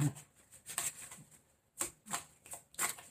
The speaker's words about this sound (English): Oh, hold on. My deck almost came out my hand. Hold on. That was a card that almost jumped out at me.